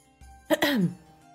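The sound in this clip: A woman politely clears her throat: a single short 'ahem' whose pitch slides downward, alone against quiet background.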